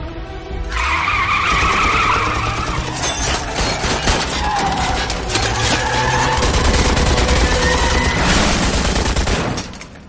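A car reverses at full throttle during a first driving lesson, its engine roaring while tyres squeal in long, high skids, loud and continuous with a few harsh squeal bursts and no voices.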